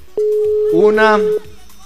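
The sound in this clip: One ring of an unanswered telephone call sounds as a single steady, mid-pitched tone lasting about a second, with a voice speaking over its middle part.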